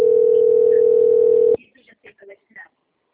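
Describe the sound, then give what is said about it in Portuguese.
A telephone tone for an incoming call holds steady at one mid pitch for about a second and a half, then cuts off abruptly. A few faint, short sounds follow. “Deixa eu ver se é banco, tá me ligando.”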